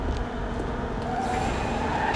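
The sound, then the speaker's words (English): A car pulls into an alley at night, giving a steady, continuous rumble of engine and road noise at an even level throughout, with no voices. “As he retreats, a car pulls into the alley and heads him off.”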